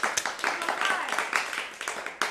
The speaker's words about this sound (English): Let's give it up, live studio audience.